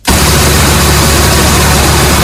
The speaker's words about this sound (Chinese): 在安徽宣城郎溪县建平镇的再生稻田里，收割机开足马力穿梭，切割、脱粒、装车一气呵成